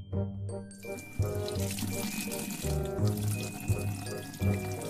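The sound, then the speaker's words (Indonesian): Running tap water as hands are washed at a sink, a steady rushing hiss that continues throughout beneath background music. “kakak cuci tangan dulu ya”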